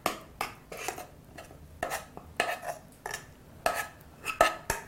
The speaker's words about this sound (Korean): 자, 이것도 한번 그릇에 옮겨볼까요?